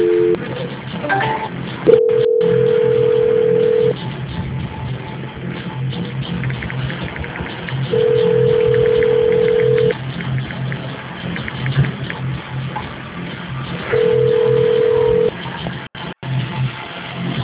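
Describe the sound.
Telephone call-transfer tones: three long, steady mid-pitched beeps, each about one and a half to two seconds, spaced several seconds apart over faint line hiss.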